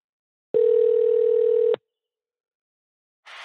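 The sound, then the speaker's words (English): A telephone dial tone while placing a call: one steady, continuous tone lasting just over a second that cuts off into silence, with a short burst of noise starting at the very end. “Let me see if I can find Chris Wallace's number.”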